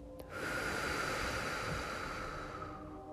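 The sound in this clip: Slow breathing during a guided winter meditation: one long, steady, soft airy breath sustained for nearly the whole moment, with no talking.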